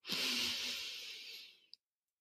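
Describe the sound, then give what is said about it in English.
A single long, deep inhale taken during a guided gratitude breathing exercise, a steady airy hiss lasting under two seconds that cuts off abruptly with a faint click. “let's just take those few deep breaths together because honestly, I could use them too. So join me for a deep breath in”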